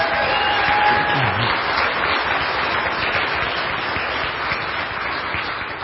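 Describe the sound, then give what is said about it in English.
Sustained audience applause for a father after his baptism with his daughter, a loud, dense wash of clapping that holds steady for about six seconds and eases slightly near the end. “So let's give Nick a hand.”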